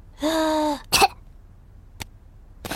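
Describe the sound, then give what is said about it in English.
A young cartoon piglet playing doctors and nurses gives a single short cough. It comes right after a drawn-out voiced breath-in sound, and a few faint clicks follow. “take a big breath in, then cough.”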